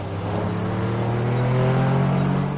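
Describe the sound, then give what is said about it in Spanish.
A car engine pulls away from a house, a loud, steady motor hum with a low tonal drone that holds throughout and swells slightly as it accelerates. “Da marcha atrás, para el coche, acelera y se aleja de la casa.”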